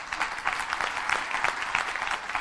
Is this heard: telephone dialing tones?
no